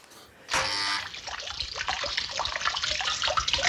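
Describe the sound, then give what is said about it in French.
A fish-shaped fountain at a village house sprays a jet of water: a sudden bright hiss of spray followed by continuous splashing and trickling. “Madame Harpel est si fière, avec sa fontaine poisson qui lance son jet d'eau.”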